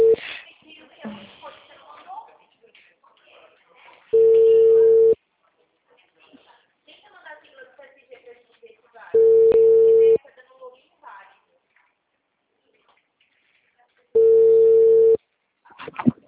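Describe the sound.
Telephone ringback tone on an outgoing call: three steady, mid-pitched buzzes, each about a second long and spaced about five seconds apart, with faint rustling and low murmurs in the gaps.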